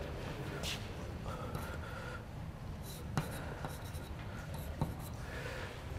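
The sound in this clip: Handwriting strokes scratch steadily across the whole stretch, faint and continuous over a low background hum, with a couple of sharper ticks partway through; no one talks.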